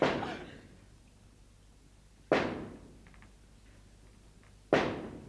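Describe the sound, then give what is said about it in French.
Heavy knocking on a door interrupts a meal in a 1952 recording of Molière's Dom Juan: three loud, widely spaced booming blows, each followed by a long fading tail, alone over a faint hiss. “Qui peut frapper de la sorte? Qui diable nous vient troubler dans notre repas?”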